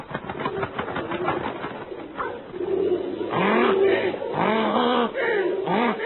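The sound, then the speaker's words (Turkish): Pigeons cooing in an army-like attack on people: repeated low, rounded coos rise and fall in overlapping bursts over a dense, busy bed of sound, growing louder in the second half. “Yoldaşlar geliyorlar. Güvercinler ordusu insanlara hücum.”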